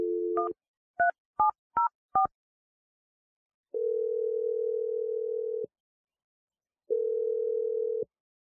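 A telephone number is dialed: a short steady dial tone, then four quick keypad beeps at varying pitches, followed by two long, even, steady tones after a pause, all clean and alone.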